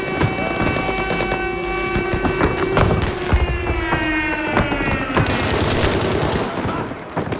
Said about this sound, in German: Was ihr da im Hintergrund hört, das ist Battlefield 5.